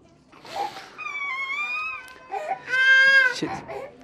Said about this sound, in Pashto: ویر، ژړا او انګولا.